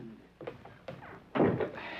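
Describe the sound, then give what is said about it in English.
A door is shut with a few soft knocks and scrapes followed by a firmer thud. All of it is fairly faint. “And shut the door.”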